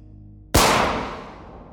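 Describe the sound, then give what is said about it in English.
A single pistol gunshot fired into a man's neck: one sudden loud crack that breaks a quiet low hum and decays in a long fading tail. “Casting around to ensure they're alone, the gunman withdraws his weapon and creeps up on his target. He fires into the back of Kirov's neck.”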